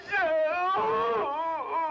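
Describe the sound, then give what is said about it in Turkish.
Crying from people overcome with emotion: a continuous, wavering, moaning sob with a shaky pitch that rises and dips, moderately loud and sustained for about two seconds. “Hadi ağlama hadi. Hadi şimdi bırakın ağlaşmayı”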